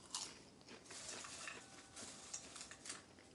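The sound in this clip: Crunchy chewing of kettle corn: many crisp, irregular crackling bites and chews, fairly faint, with no talking.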